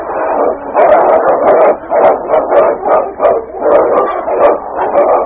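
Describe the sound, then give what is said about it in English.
Dog barking repeatedly in rapid, overlapping bursts, loud and continuous, with several dogs apparently fighting and snarling in a busy, agitated scuffle. “listen, that's a dog's bark. Can you see? That last one. It is a dog.”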